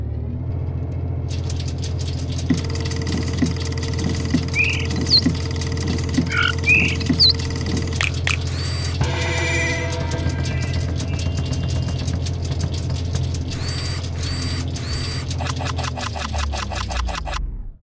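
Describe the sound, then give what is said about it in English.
A whirring mechanical sound effect stands for a random number generator running. A steady low engine-like hum carries chirps and buzzing bursts, then a stretch of rapid ticking, before it cuts off abruptly. “So let's now run the random number generator.”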